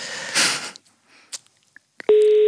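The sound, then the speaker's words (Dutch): Ringing tone of an outgoing call on a mobile phone: after a burst of rustling noise and a few faint clicks, a steady, loud electronic tone starts abruptly near the end. “Ik ga nu bellen naar Gustav, als het goed is voor jullie.”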